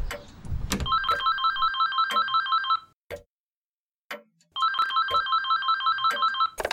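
A telephone rings with an electronic warbling tone, sounding in two long bursts separated by a silent pause. The rings are clear and steady, with no voices.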